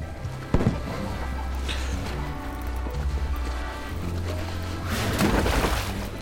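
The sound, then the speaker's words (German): Cannon shots fired from a merchant ship at sea: one sharp boom near the start over a dense, steady rumbling wash, with rougher crackling bursts swelling toward the end. “Oh, da, da wären wir beinahe getroffen worden. Haben die jetzt geschossen? Ja, die haben geschossen. Ein Händlerschiff, das schießt?”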